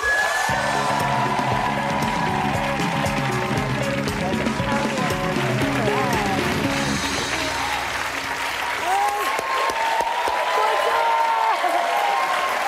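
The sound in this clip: A studio audience applauds and cheers as a guest enters a talk show, dense and loud clapping with whoops that fills the whole stretch without easing.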